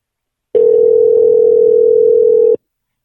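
A telephone call ringing while waiting for an answer: one steady, unbroken electronic tone lasting about two seconds, loud and alone, with silence before and after.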